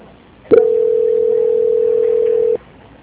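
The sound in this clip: A telephone line tone during a call transfer: one steady, unbroken mid-pitched beep held for about two seconds, loud and alone over faint line hiss.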